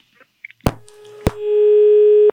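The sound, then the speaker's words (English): A telephone line tone after a caller's connection drops: two sharp clicks, then a loud, steady mid-pitched hum that holds unbroken to the end, with no voices. “Lost the caller, but you can keep trying.”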